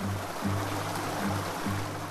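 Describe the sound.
A river in Colombia flowing as a group of people wades across it, a steady, faint rushing hiss of moving water throughout.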